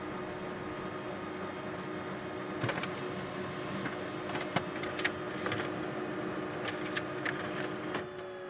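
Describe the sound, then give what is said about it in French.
A printer at work printing coupons, a faint steady mechanical whir and hum broken by several sharp clicks and clacks spread across the run. “Imprimer mes coupons. Voilà.”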